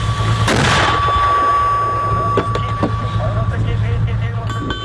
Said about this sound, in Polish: Wystrzał!